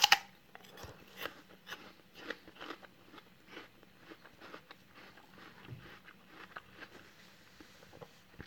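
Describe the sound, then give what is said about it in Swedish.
Crisp crunching of teeth biting into an apple: a sharp crunch at the start, then many smaller crackling chewing sounds in an uneven rhythm, fairly faint and with no voices. “Denji bet i sitt äpple.”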